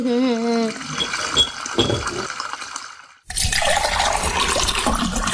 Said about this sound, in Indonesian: Ngomong sama air ya, lebih bagus kalau kerannya itu ditutup. Kan airnya jadi terbuang percuma.